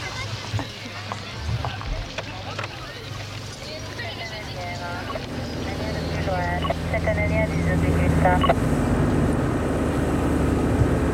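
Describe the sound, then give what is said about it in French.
A taxi's car engine runs as the car sets off, a low steady rumble that grows louder and fuller partway through, with voices over it. “Et le chauffeur a mis la voiture en route.”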